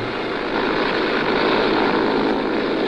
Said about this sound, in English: Dr. Brown and Nancy are just taking off.